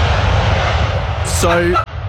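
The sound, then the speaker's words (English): An airplane landing as its wheels touch down, with a loud, steady engine roar, a brief higher tonal whine near the end and then a sudden drop in level. “So the wheels have touched down, and I thought, this is an historic moment.”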